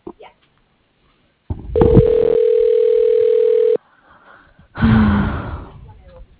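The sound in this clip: Telephone ringback on a business line after dialing an extension: one long, steady ringing tone at a fixed pitch that cuts off abruptly, followed by a short breathy voice sound.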